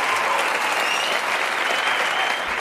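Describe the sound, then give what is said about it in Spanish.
Audience applause at a live event: dense, steady clapping that holds at a loud, even level for the whole stretch, with no voices over it. “¡Un aplauso!”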